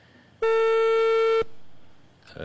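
A telephone line tone as a call is placed to an interviewee: one steady, buzzing tone lasting about a second, heard alone and followed by quiet.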